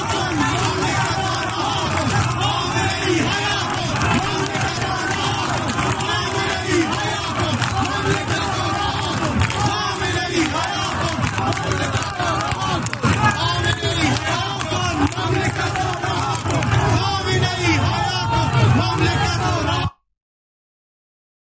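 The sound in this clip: Crowd of protesters at a street demonstration, a dense, continuous roar of many shouting voices that stays loud and steady for about twenty seconds before cutting off abruptly.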